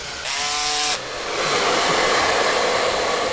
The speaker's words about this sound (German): Hier in der Zugwerkstatt des Heuchelheimer Karnevalvereins wird seit Wochen gesägt, geschraubt, geklebt, gemalt und geföhnt, denn die frisch geklebten Pappfiguren sollen natürlich schnell trocknen